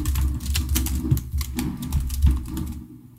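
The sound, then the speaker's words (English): Rapid keystrokes on a computer keyboard as a search is typed in, a dense run of light clicking taps with slight pauses between bursts, heard alone. “And I'm a little even reluctant to say this, but can you type in social security number and see what comes up?”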